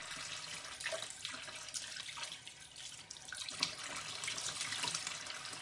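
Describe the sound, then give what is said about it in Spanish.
Water runs steadily from a kitchen tap as a kitchen cloth is soaked under it, a continuous splashing hiss with small fluctuations and no voices. “Coge un trapo de cocina y se acerca a la fregadera. Abre el grifo y lo remoja.”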